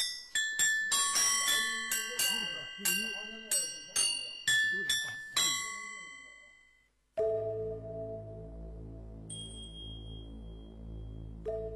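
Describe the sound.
Bright metallic strikes from a yunluo, a Chinese cloud gong chime, played in a village ensemble of ancient Buddhist ritual music. A quick series of ringing pitched hits, each decaying briefly, gives way to a sustained droning harmonic tone.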